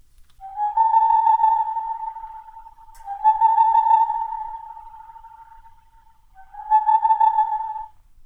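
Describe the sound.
A boreal owl, also called Tengmalm's owl, gives three bursts of rapid, hollow hooting. Each lasts about two seconds and holds a steady mid pitch, with silence between them.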